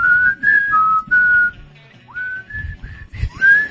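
A solo whistled rendition of the Hungarian national anthem, a clear, bright melody of sustained notes joined by short upward slides, phrased in steady bursts with brief breaths between them.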